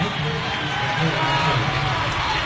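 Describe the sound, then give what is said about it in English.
A basketball crowd of Black Bears fans roars in the end zone in front of their bench at a game in Lexington, a dense, steady din held at a loud level throughout. “The Black Bears roar in Lexington. And the Black Bear crowd roars in the end zone in front of their bench.”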